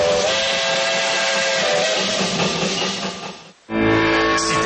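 A steam train whistle sounds loud and shrill with a hissing edge: one long sustained blast, then a brief break, then a second blast.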